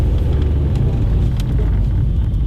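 Steady engine and road rumble from a car driving up the mountain road towards Mount Ruapehu, a dense, even low drone that holds without a break and with no voices over it.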